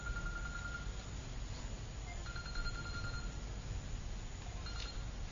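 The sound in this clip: A mobile phone ringtone going off during a religious lecture: faint repeating electronic tone bursts over a low, steady background hum, with no voices.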